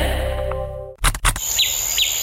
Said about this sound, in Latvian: Te, kur mēs dzīvojam, ir pļāva un putni dzied.